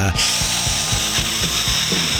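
High-pitched whine of a dental drill sound effect, loud and steady, with a quick regular rattling pulse beating underneath throughout.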